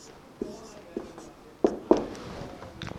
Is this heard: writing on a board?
yes